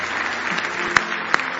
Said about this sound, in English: Give Him one more hand clap of praise this morning.